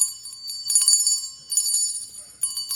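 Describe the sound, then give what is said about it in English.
A small handbell, like those rung by charity volunteers outside stores, is shaken in several separate bursts of bright, high, jingling ringing with short pauses between them. “that sound oftentimes is ringing through parking lots, right? It's in front of grocery stores, department stores, in malls, and it's a person that is volunteering for the Salvation Army.”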